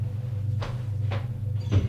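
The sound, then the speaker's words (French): A door being closed: three soft, muffled clunks at uneven intervals, the last a bit heavier, over a faint, steady low hum. “ferme la porte.”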